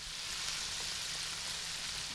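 Sizzling of bluegill and crappie coated in flour and seasonings as they fry, a steady, even hiss that holds at one level throughout with no voices.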